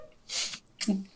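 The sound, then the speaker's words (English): A rewind sound effect, muffled and warbling as if heard underwater, swells in two breathy, whooshing bursts, fairly faint throughout. “I love the unedited and so it sounds like you're underwater. Right? It's a rewind if it was underwater. Yeah, that's exactly what it sounds like.”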